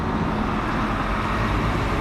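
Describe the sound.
Buses leave a border crossing as an unbroken, fairly loud rumble of engines and road noise. The drone stays even throughout, with no distinct events and no voices.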